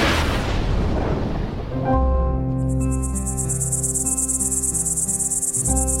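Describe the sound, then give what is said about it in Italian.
Cicadas shrill on a scorching summer day in Sicily. A loud, steady, high buzz sets in after an opening wash of noise and carries on over sustained low droning tones. “Il suono delle cicale è assordante.”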